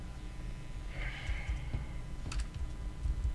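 Typing on a computer keyboard: faint, scattered key clicks come in a few quick bursts over a low, quiet background.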